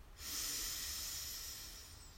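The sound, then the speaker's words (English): A single long, deep breath drawn in during a guided relaxation breathing exercise: a steady, airy hiss that swells quickly and holds for about two seconds, with no talk over it. “And one last time, deep breath in.”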